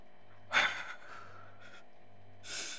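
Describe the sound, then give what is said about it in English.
Slow, controlled breathing, in on a count of four and out on four: soft, airy breaths, the first the loudest, over a low steady hum, with no talk. “Remember, breathe in four, breathe out four.”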